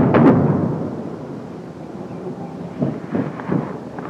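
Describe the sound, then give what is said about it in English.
A deep airstrike explosion from napalm booms loudly at the start, then decays into a long low rumble with a few dull thuds later on and no talk. “That's too close. Airstrike.”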